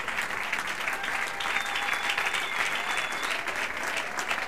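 A church audience applauds with dense, steady clapping that holds at an even level throughout, with no clear break or pause.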